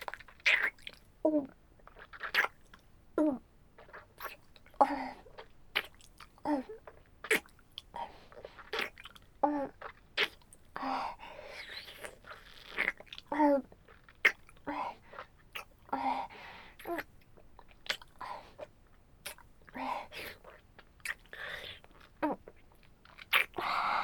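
Food being bitten and chewed, with many crisp crunches and moist chewing sounds at an irregular rhythm throughout, fairly quiet overall.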